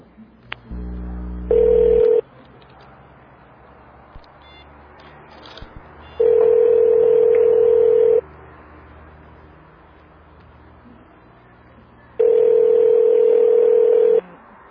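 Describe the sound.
An outgoing telephone call: a short low tone, then three long, steady ringback beeps, each about two seconds long and spaced roughly six seconds apart, over a faint hiss.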